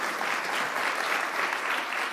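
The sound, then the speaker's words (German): Applause from an audience at a gathering, a dense, steady patter of many clapping hands holding an even, moderately loud level for about two seconds with no voices over it. “Dein Applaus.”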